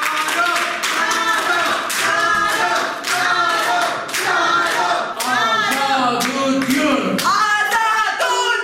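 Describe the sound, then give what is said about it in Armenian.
A crowded courtroom hall greets a defendant at an open court session with loud, steady rhythmic clapping and voices chanting together throughout. “Կարո Եղնուկյանը, ում մարդաշատ դահլիճը դիմավորեց ծափերով ու վանկարկումներով”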